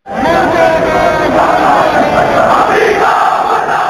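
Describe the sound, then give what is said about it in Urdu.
Crowd chanting slogans in a peaceful procession held right after Friday prayers in solidarity with Bahrain, voicing protest against America and its allies; a dense, loud mass of voices rolls on without a break from start to finish. “نماز جمعہ کے فوراً بعد لوگوں نے بحرین لوگوں کے ساتھ اظہاری یکجہتی کے لیے ایک پرامن جلوس نکالا، جس میں تمام لوگ امریکہ اور اس کے اتحادیوں کے خلاف نعرے بلند کر رہے تھے۔”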